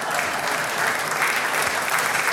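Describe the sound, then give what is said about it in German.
Audience applause at a Bavarian folk music and comedy evening, a thick, even clatter of many hands that carries at a constant level without pauses or voices. “Sie können sich Zeit lassen, wenn es Ihnen gefallen hat, klatschen, sonst tue ich weiter.”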